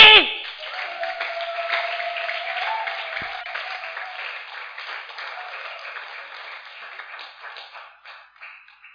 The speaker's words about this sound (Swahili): yani bwana makofi